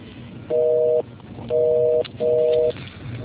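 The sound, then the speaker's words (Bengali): Telephone line tone while redialing after a disconnected call: three steady, dual-pitched beeps of about half a second each, evenly spaced with short gaps, over a faint hiss. “ওকে, লাইনটা unfortunately disconnected, আমরা আরেকটা লাইনে try করছি।”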